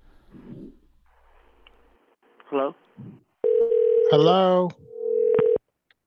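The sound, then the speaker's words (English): Electronic telephone tone sounding in sustained stretches split by a short gap, with a warbling voice-like sound over part of it and quieter scattered noises before. “Rapid ringing, folks. We got rapid ringing. Folks, we got some. It's an unstable ringing.”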